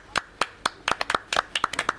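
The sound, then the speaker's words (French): A small group in a studio claps for themselves: many crisp, uneven hand claps, loose and scattered rather than a steady round of applause, with no talk over them. “Merci, messieurs. Vous pouvez vous applaudir.”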